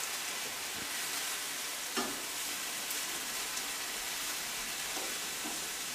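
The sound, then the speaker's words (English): Diced hot pepper sizzles as it fries in a pan: a steady, bright hiss throughout, broken by a few small pops and crackles. “I should have had a bigger pan. How long do you cook it for? Just till everything just like shrinks down.”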